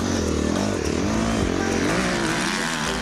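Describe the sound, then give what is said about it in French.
A motorcycle engine drones loudly and continuously as the rider struggles for grip while trying to turn through a corner, its pitch wavering slightly up and down without any clear pause. “J'essaye de faire virer la moto, mais je trouve pas d'appui.”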